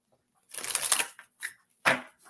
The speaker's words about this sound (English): I will pull a card for you.